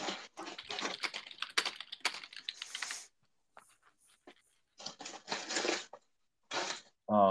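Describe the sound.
Typing on a computer keyboard for an internet search: many quiet, rapid keystrokes clatter in two bursts separated by a pause, and a voice starts at the very end.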